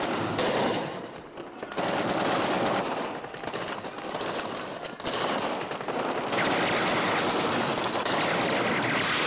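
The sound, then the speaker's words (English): Machine-gun fire aimed toward a window in an office: a dense, loud, continuous rattle of rapid shots lasting several seconds, with brief dips in intensity and no voices. “In Ripper's office, the remaining pictures fall. Ripper shoots his machine gun toward the window.”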